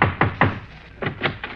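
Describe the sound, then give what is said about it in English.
Knocking on a door: two quick groups of three sharp, solid raps each, separated by a short pause. “Look, there's a peanut oil lamp burning in his window. Now, let's knock.”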